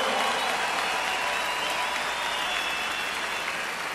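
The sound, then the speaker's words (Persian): Steady, dense audience applause at a live concert, clapping for the drummer, continuous and loud for the whole stretch without any voices over it. “و نوازنده ویولون آرمن آناسیان، به افتخار آرمن و گروپش، تانکیو، به افتخارشون دست محکم.”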